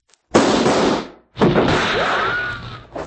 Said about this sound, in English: And that makes six. All right, Cleaver, your gun's empty, I reckon